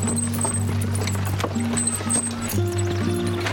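Horse hooves clip-clop in a steady rhythm as a horse-drawn cart sets off, under sustained tonal backing sounds.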